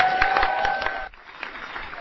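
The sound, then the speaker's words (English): Cowbells clang alongside applause to welcome a speaker to the podium. Bright ringing tones and clapping fill the first half, then the bells stop and the clapping continues alone at a lower level. “And I'm going to insist at every future event that there are cowbells on the table to welcome me when I speak.”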